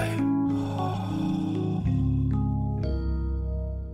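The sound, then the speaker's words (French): A short radio jingle made of sustained, loud tonal notes that shift to new pitches every half-second or so across a few steps, with no voices. “c'est d'envoyer notre petit jingle sur cette rubrique que j'adore, qui est s'inspirer, respirer”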